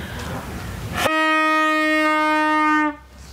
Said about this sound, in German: die ist die mittelalterliche Nachtwächterin, die ist hier unterwegs und hat hier so ein Horn. Was ist denn das für ein Horn eigentlich? Und das macht einen Ton. Geht das auch leise? Das geht nur laut.